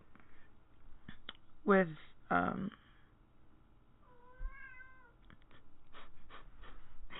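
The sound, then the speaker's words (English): A pet cat meowing to be let out gives a few loud, bending cries close together, then a softer, wavering call over a quiet background. “I'll get him. He has to go out. Our cat, again.”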